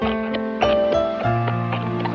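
Horse hooves clip-clopping as a rider leaves on a horse with a chest of jewels strapped to its saddle: steady, evenly spaced hoof beats over sustained background music.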